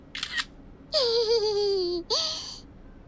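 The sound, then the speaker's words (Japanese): A camera snaps a commemorative photo of a father and guests with a brief shutter burst, followed by high-pitched vocal sounds, a long one and then a shorter one. “お父さん、お客様、記念写真撮ろうか。”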